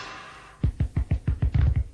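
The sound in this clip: Knocks on a door in a comedy sketch: a rapid run of many sharp, low thuds that starts after a short stretch of quiet background and keeps a steady, insistent rhythm to the end.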